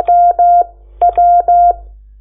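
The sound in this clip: Morse code tones for the letter J: a steady mid-pitched beep keyed as two long tones, a pause, then one short tone followed by two long tones. The tones are heard alone, with no talk.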